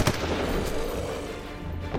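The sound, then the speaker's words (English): Rifle gunfire in a street battle among buildings: a few sharp reports stand out over a dense, rumbling wash of combat noise. “It quickly became a shooting gallery. They came from all directions, behind buildings and out of windows. We kept firing, still unsure of what to do.”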